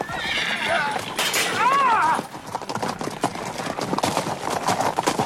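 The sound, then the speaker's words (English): A galloping horse lets out a loud, high neigh that rises and falls, followed by many rapid hoofbeats, with voices talking over a dramatic scene of a knight riding to help. “King Arthur's galloping!”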